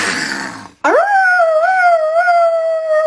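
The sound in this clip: A person imitates a wolf howl, giving one long, loud, sustained howl that sweeps quickly upward at the start and then holds, drifting slowly lower in pitch until the end.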